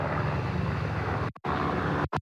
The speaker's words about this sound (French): On vient de voir à l'instant encore un hélicoptère passer pour lâcher de quoi lutter contre les flammes.